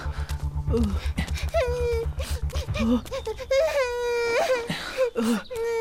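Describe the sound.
A child cries in wavering, high wails broken by whimpers and short sobbing bursts. The pitch bends up and down across many uneven cries.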